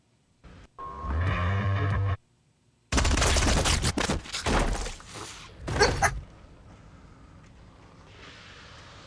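Gunshots from a film scene's sound design: after a short tonal passage, a dense burst of rapid, loud shots runs for about three seconds, then the sound drops to a faint low hum.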